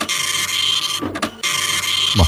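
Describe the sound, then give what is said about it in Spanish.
An old printer prints with a steady, dense mechanical buzz and whir that cuts out briefly near the middle, with a few low thumps and sliding hums, then resumes at the same level. “O sea, digo yo, ¿no es un poquito antigua la impresora?”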